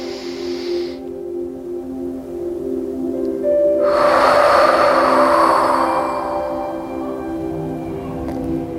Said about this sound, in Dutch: adem nog even heel diep in.